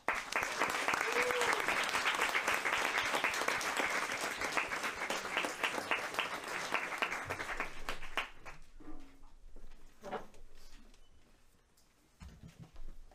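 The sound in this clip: An audience at a book talk at Moe's Books applauds to welcome the speakers. Dense, steady clapping runs for about eight seconds, then thins to scattered claps and small rustling sounds before it fades.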